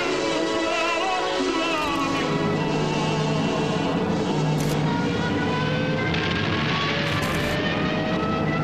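Droning engines of approaching enemy aircraft during a wartime air raid: a loud, steady roar with layered humming tones that waver and slowly shift in pitch throughout.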